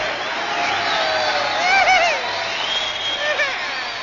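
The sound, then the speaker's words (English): Audience applause and cheering before a singer begins a rock-and-roll number, a steady wash of clapping throughout with a few high, rising and falling whoops over it. “Thank you, clappers. Thank you.”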